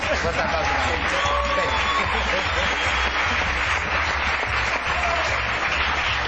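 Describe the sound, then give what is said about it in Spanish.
Studio audience applause on a television set: dense, steady clapping at an even loudness that fills the whole clip, with faint whoops and crowd babble mixed in. “Un fuerte aplauso para él.”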